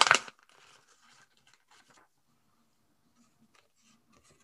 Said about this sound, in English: I can see lots of gold envelopes. So shall we open them and see what the message is for today?